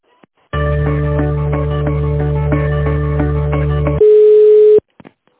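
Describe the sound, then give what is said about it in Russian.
Telephone line tone during a call transfer: a steady buzzing tone with faint regular pulses for several seconds, then one pure, sustained higher beep, followed by a few faint clicks. “перевожу на Сергея, специалиста нашего”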